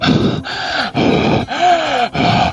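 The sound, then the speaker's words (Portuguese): A video game character breathes desperately through a gas mask as its filter runs out. Five loud, rasping breaths follow each other in a steady rhythm with short gaps, some carrying a groaning voiced tone. “quando o filtro começa a acabar, o cara ele começa a respirar desesperadamente”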